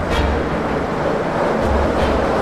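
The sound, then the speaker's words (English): Heavy rumble and hiss of a monorail train starting up and moving off, a dense, loud, steady roar with a few brief whooshing surges and no voices. “As the monorail lurched into motion”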